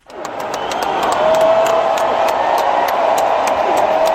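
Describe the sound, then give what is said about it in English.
A crowd cheers and applauds Joe Biden as he arrives on stage at the Democratic convention in Chicago. The loud, sustained roar of clapping and shouting builds quickly, with faint whistles cutting through. “Biden was cheered to the rafters as he arrived on stage by a party that was, in effect, saying goodbye to him.”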